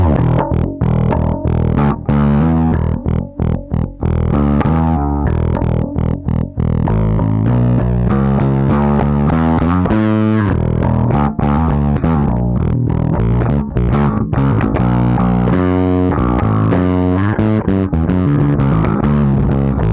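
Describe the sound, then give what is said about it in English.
Bass guitar played through the octave section of a distortion pedal gives a thick, fuzzy, buzzing tone with sustained notes and shifting low pitches, heard alone without talk. “This is, I think, the octave section. I like that.”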